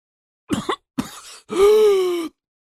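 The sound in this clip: A voice acts out a man's coughing right after he is let go from a girl's grip: two short, rough cough bursts, then a longer strained, groaning exhale, loud and with no other talk.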